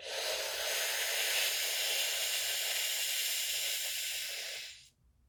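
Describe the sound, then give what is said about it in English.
A person takes one slow, long inhale through pursed lips, as if sucking breath through a straw, producing a steady, airy hiss that lasts about five seconds before cutting off. “begin to squeeze them as you breathe in slowly, as if you're sucking in breath from a straw. So it sounds like this.”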